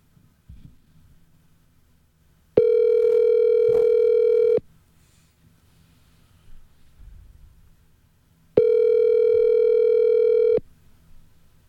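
Telephone ringback of a call ringing while waiting to go to voicemail: two steady, buzzy tones of about two seconds each, separated by a long, nearly quiet gap.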